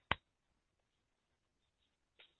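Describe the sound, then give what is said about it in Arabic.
Two women's-style claps, the right palm struck on the back of the left hand: a sharp, loud slap, then a fainter one about two seconds later, with near silence between. “هكذا يكون تصفيق النساء. طيب يصفقن ببطون اليمنى على ظهور، على ظهر الايه؟”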